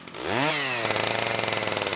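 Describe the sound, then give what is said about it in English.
A chainsaw fires up at the end of a gravel road before felling work on a large log. The engine catches with a quick upward sweep in pitch, then settles into a loud, steady, rattling buzz. “fires up a chainsaw”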